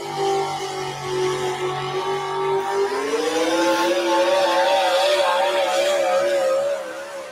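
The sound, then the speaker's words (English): A four-wheel drive pickup truck engine roars as it pulls a sled at a truck-pulling competition. The loud, steady drone climbs in pitch partway through, then stays high with a wavering, straining tone to the end. “Get the sled moving as fast as you can without bouncing. And that's a challenge in a four-wheel drive pickup.”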